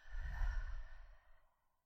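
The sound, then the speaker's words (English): A deep breath drawn in through the nose and released out through the mouth, soft and airy, swelling then trailing away into silence. “let's all just take a really, really deep breath in through our nose. And out through the mouth.”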